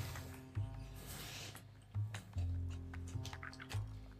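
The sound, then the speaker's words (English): Someone rinses their mouth with water, giving faint wet swishing and squishing with a few soft gurgling bursts and no talk. “Let me just rinse out my mouth here quick.”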